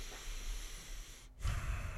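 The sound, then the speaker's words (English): A deep breath drawn in close: a steady airy hiss lasting over a second, a brief break, then a louder, lower rush of air. “Let's take a deep breath.”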